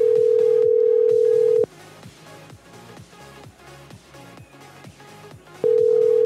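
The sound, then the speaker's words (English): Ringing tone of an unanswered phone call: a loud, steady beep cuts off, rhythmic background music fills the gap, and then the next ring begins. “I can't believe he can't even answer the phone now. Like, he's fucked this up as well. Try him again.”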